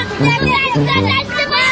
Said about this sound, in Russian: Где-то на чердаке играют дети.